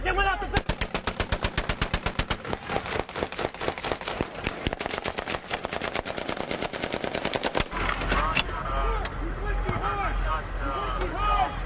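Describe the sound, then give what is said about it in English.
Gunfire from a firefight in Sadr City, Baghdad, in 2003: loud bursts of rapid automatic fire crack in quick succession for several seconds, then thin out into scattered shots over a dense rumbling background, with voices at times. “This was a firefight in Sadr City, Baghdad, shortly after the city fell to U.S. forces in 2003.”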